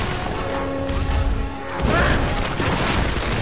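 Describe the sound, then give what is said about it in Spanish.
Stone temple columns are struck and knocked down in a heavy, continuous crashing rumble. The loud din holds steady throughout, and a fresh impact lands partway through. “Golpea y derriba columnas a su paso.”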